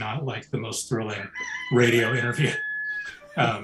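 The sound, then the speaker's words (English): A rooster crows behind a person talking, giving a few drawn-out, high-pitched crows that rise above and overlap the speech. “Can you hear the rooster in the background?”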